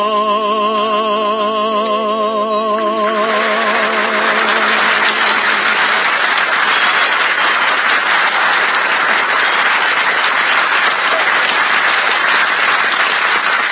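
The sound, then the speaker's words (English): Audience applause and clapping swell in as the last notes of music fade, then a dense, steady wash of many hands continues loudly to the end. “did you hear that clapping? They loved it, kid.”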